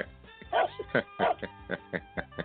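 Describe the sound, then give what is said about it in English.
A dog barks in a quick series of sharp, mid-pitched woofs, about eight loud barks with a few softer yips between them, spaced in a fairly regular rhythm. “until the day he lays his head down for the last time, you know, and goes off to the puppy kennel in the sky, he will not run out of barks”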